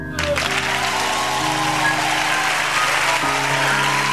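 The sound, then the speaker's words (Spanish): An audience applauds a guest named Julia with a steady, dense clatter of clapping over low sustained tones that change pitch a few times. “Un aplauso para Julia.”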